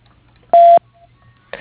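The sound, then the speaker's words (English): A single short, steady voicemail beep sounds after the greeting, followed by silence and then a voice beginning to speak. “If you'd like to leave a brief message, including your name and phone number where I can reach you, please do so after the beep.”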